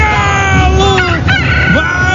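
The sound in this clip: A rooster-crow sound effect rings out after a goal in a football match: a long, loud, strained harmonic call with wavering pitch over steady low background noise.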